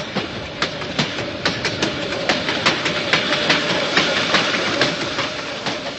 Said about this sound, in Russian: Ожидается прибытие на станцию в 17:30. Электропоезд будет следовать от станции Григорьевская.